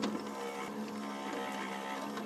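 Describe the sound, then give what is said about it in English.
A small bud-stripping machine pulls buds from plant stems in a shop, giving a loud, steady mechanical whir with a constant low hum that runs unbroken throughout. “After he stacks the stems onto a table in his shop, he feeds them into a small machine. All of those nuggets, or what would be the buds, have all got to be removed from the stem. And so that's what that machine is doing.”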